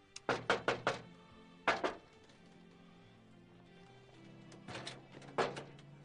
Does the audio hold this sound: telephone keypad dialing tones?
no